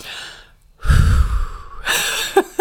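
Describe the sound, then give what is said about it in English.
A deep breath drawn in loudly and steadily on its own for about a second, followed by a softer, longer breathy exhale and a couple of short clicks. “Okay, I'm going to take a deep breath.”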